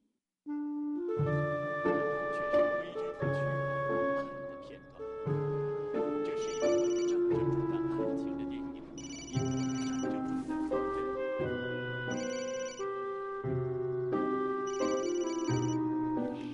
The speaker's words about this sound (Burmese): သူ့အမေဖုန်းကို ခေါ်ကြည့်လိုက်တဲ့အခါသူ့အမေဖုန်းကကတစ်ဖက်ခံကနေမြည်နေတာကိုကြားလိုက်ရတာကြောင့်